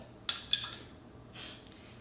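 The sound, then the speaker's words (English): Finger snaps, two sharp, crisp clicks close together, followed by a brief soft hiss. “That's a bong rip from Kobe. Wait. That was a snap for Kobe.”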